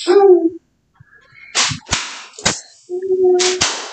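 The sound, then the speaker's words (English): Sharp smacks of a leather flogger land a few times, each a short bright crack separated by brief pauses, with a sustained tonal vocal sound before and between the strikes. “My mind just went blank. Flogger. The leather flogger.”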